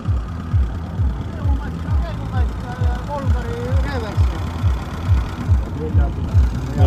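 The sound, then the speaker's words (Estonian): A homemade tractor engine running, built for work around a home farm, its steady low chugging thumps repeating in a quick regular rhythm while a man talks over it. “Traktor mõnusalt siin odiseb.”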